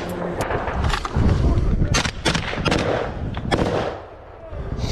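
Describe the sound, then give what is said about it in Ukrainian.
Gunfire and heavy booms ring out in a battle in which a Ukrainian tank fires on Russian army positions: many sharp, loud shots in irregular bursts, some close together, over a rumbling background. “Бій зав'язався на фоні. Чуєте, стрілець.”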